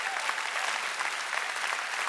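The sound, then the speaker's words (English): Audience clapping their hands, a dense, even patter of many hands that stays steady across the short stretch. “Come on, clap your hands if you believe that.”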